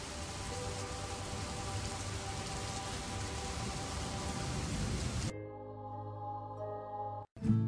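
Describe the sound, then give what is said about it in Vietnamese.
Steady rain falls at night in Taipei, a dense, even hiss that holds for about five seconds before cutting off abruptly. “Đêm đó ở Đài Bắc, cả bầu trời đều là mưa”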